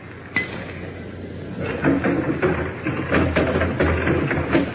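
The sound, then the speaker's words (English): A window being opened: a sharp knock, then a run of rattling, clattering bumps that grow louder and continue to the end. “Go on, Buddy, open the window. I will.”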